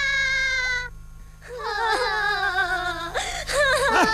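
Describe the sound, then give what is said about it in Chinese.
Someone cries in high, wavering, tearful wails, broken into a few sobbing bursts with short dips in between, over a steady low hum. “别哭别哭”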